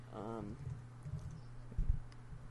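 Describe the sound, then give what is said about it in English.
Faint typing on a keyboard, a few soft scattered key taps with one brief cluster near the end, over a low steady hum and a short squeak at the start. “I just typed in white people.”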